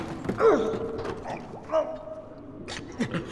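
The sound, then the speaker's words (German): A door creaks open with a drawn-out, groaning squeal made up of a few wavering creaks, heard over a steady low background noise. “Vorsicht, die Tür!”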